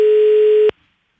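A telephone tone of an outgoing call: a single steady pure tone held for under a second, then cut off abruptly into silence.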